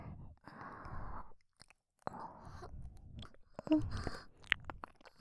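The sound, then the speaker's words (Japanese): Close, quiet ASMR ear-licking mouth sounds: a few bursts of wet smacking and slurping separated by short silences, with soft breaths between them. “私は旦那様のお耳舐めさせていただきます。”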